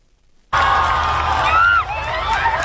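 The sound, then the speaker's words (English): A vast crowd cheers in the streets of Madrid as Pope Leo passes in his Popemobile. After a moment of near silence it bursts into a loud, sustained roar, with high whistling tones and shouts threaded through it. “More than a million people lined the streets of Madrid today, waving flags and banners to welcome Pope Leo. He greeted the crowds as he made his way through the city in his Popemobile”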